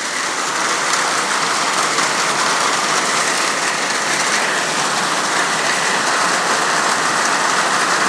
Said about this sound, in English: Alright, that's enough of the rain. Back inside. And there you have it, the rainstorm.